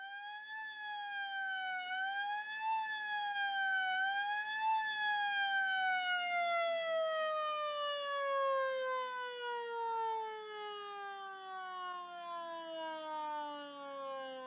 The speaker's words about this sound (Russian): Однажды вечером на машине скорой помощи в больницу доставили женщину.